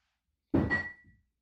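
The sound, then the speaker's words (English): A single dull thud, as a cat knocks something over, with a short ringing tone trailing off, then quieter rattling; heard alone. “Heard that in the background? That was the sound of the cat probably knocking something over.”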